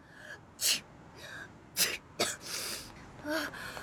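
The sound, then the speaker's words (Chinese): Several sneezes from a person with a cold who is running over. The sharp, separate bursts come at irregular intervals and are fairly faint overall. “一边打着喷嚏一边跑了过来”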